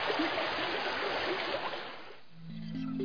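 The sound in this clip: Rushing, steady water noise of tidewater flowing thickly through flooded streets, broad and even for about two seconds before it fades and a low, steady tone takes over near the end.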